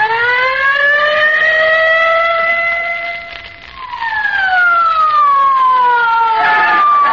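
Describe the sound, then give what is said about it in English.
A police squad car siren wails loudly and alone in a radio drama, its tone climbing slowly, dipping briefly, then falling away in a long descending sweep. “Hey, officer. Drive us to 79 Wistful Vista. In a hurry. Yeah. Get in the squad car quick, Molly.”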